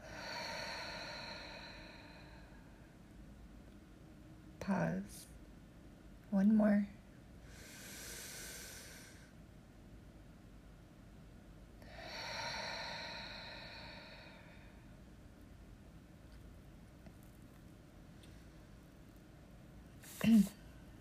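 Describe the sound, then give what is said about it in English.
Deep breathing during a guided breathing exercise, with air let out through the mouth. Two long, soft, airy breaths, in and out, are separated by quiet pauses. A few brief faint clicks are heard, and no talk. “Pause. Inhale. Exhale.”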